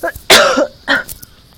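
A person coughs after coffee goes down the wrong way and catches in the throat. A few harsh, raspy bursts come close together, the second one loudest and longest, with no talking between them.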